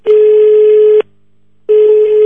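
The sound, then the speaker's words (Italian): An outgoing telephone call rings out, with a loud, steady electronic tone sounding in two long pulses of about a second each, separated by a short silence. “Proviamo a chiamarlo in diretta.”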